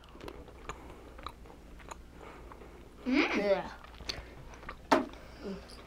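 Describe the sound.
Soft, faint chewing of a tutti frutti flavoured Bean Boozled jelly bean, with scattered small wet mouth clicks and a brief voiced murmur near the middle.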